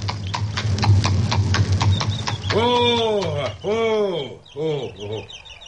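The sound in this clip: Horse hooves clip-clop in a steady, repeated rhythm as a rider approaches travelers on foot along a road. The hoofbeats are loud at first, then voices take over as people begin talking.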